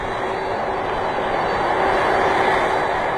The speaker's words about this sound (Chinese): 上午十一点三十六分，顺丰航空波音七六七三零零全货机搭载着一批发往深圳的快件，由鄂州花湖机场飞往深圳宝安机场，标志着鄂州花湖机场正式投运。